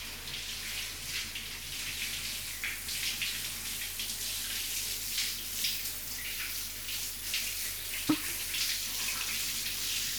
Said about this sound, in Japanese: とりあえず体の汗流していきましょうか。